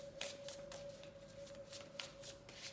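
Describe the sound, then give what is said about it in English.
Tarot cards are shuffled by hand before one is pulled in a card reading, giving many quick, soft riffling bursts in a steady rhythm over a faint constant hum. “Gonna pull one more card.”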